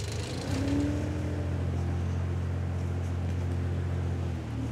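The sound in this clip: A small farm machine, driven by a child and given more throttle, runs with a steady, low engine drone and a rough mechanical hum that holds level to the end.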